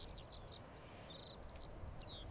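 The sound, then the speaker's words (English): Birds on the Farne Islands, skylarks among them, with faint, high chirps and whistled trills running through the whole clip over a steady low background hiss. “As always, there's the birds, swans, eider ducks known as cuddy ducks, kittiwakes, and skylarks, skylarks, skylarks.”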